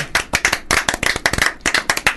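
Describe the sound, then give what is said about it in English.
One person claps their hands many times in quick, slightly uneven bursts, each clap sharp and crisp, with no other sound between them. “I was clapping myself then, is that all right?”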